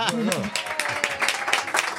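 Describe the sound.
Audience applause follows a host's call for a round of clapping, a dense, even wash of claps heard under a speaking voice for the whole stretch.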